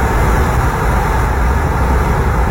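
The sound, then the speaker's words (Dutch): A car cruises along a motorway in France with a window slightly open, producing a loud, constant roar of rushing wind and road noise with no breaks or changes. “Dit is het geluid van het raam dat een klein stukje open staat en we rijden hier in Frankrijk over de snelweg.”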